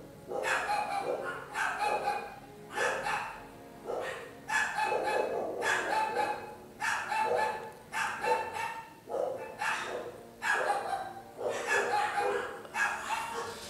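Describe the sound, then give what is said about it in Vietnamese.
A neighbour's dog barks over and over in sharp, loud bursts at a steady pace of about one per second, with little pause through the whole stretch. “Bây giờ đến lượt là chó nhà hàng xóm biểu tình.”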